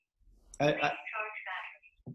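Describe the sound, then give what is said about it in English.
A phone alert going off, a brief tinny electronic prompt with a narrow, voice-like tone, ending in a short clipped blip. “My other phone is going off there.”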